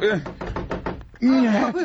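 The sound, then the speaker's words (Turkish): Knocking on a door in a Turkish comedy scene: a quick run of about five sharp raps, with a voice speaking just before and after. “Kapı çalınıyor.”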